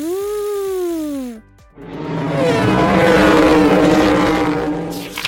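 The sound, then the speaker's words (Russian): A race car engine whines loudly with a rising then falling pitch, cuts off briefly, then swells into a loud, sustained roar that holds for several seconds before easing slightly. “Гоночная машина ревет.”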